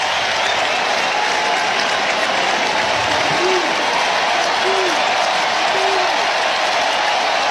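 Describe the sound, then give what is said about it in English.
Blue Jays fans applaud and cheer at a baseball game during the ninth inning with their team ahead 8-1; loud, continuous clapping and crowd roar hold steady throughout, with faint voices. “Blue Jay fans making noise.”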